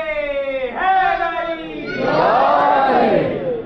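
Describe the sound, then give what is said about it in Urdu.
The Naara-e-Haidari slogan at a Shia majlis in Lahore: a single voice gives a long, drawn-out call, then a crowd roars the response together, louder and fuller. “خوب یہ نعرہ حیدری یعنی میں آمادہ ہوں, لبیک یا حسین مولا آمادہ ہوں.”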